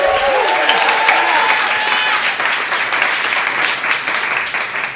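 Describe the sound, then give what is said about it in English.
A live studio audience applauds at the opening of a show, with loud, dense, sustained clapping over five seconds that eases slightly toward the end and has faint voices mixed in. “As you could hear, we have a live studio audience with us here today”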